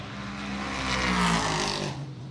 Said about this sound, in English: Ricky now revs the car into life, and away he goes